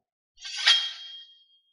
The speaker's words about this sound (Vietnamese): Một tiếng âm thanh như lông ngâm vang lên, trảm long bảo kiếm nhanh chóng được rút ra.